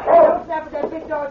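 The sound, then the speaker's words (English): A big dog barks in play, giving a few short, yelping, bow-wow barks: one longer and louder at the start, then softer ones after it. “When King barks like that, he's only playing.”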